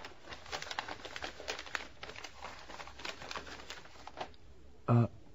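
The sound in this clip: Crinkling wrapping paper as a gift package holding a gold wristwatch is opened, a busy stream of rapid rustles and crackles.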